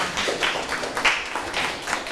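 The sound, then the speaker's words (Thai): Scattered clapping from a classroom group applauding the winning team after an activity, a short burst of uneven, overlapping claps with a steady level throughout. “ปรบมือให้กับผู้ชนะค่ะ”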